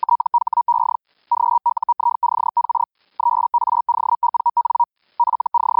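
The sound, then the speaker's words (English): Feld Hell Hellschreiber amateur radio signal, a steady mid-pitched tone chopped into rapid buzzing pulses, sent in clustered bursts separated by brief silent gaps, loud and alone with no voices. “the one most commonly heard in amateur radio is called Feld Hell. It's pretty easy to pick out a Feld Hell signal because it doesn't sound like anything else you probably hear on the band.”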